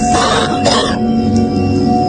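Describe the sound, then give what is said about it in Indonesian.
A man coughs, giving short harsh bursts near the start over a steady background hum, then the hum continues alone. “terdengar suara batuk seorang pria”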